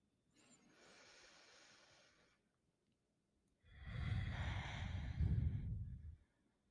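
A deep breath in, heard as two long, airy breathing sounds with no talk: the first softer, the second louder and fuller, with a breathy rush that fades at the end.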